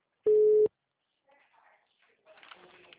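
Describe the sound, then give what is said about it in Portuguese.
A telephone tone after a dropped call: a single loud, steady mid-pitched beep sounds alone, then quiet gives way to faint, scattered speech. “Tava falando com o senhor, ligação caiu.”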